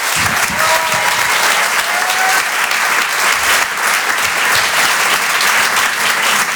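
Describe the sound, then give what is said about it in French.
An audience applauds a comedian taking the stage at a stand-up comedy show in a theatre. Loud, dense clapping continues without a break throughout. “Je vous demande de l'encourager. Faites du bruit pour Rodrigue.”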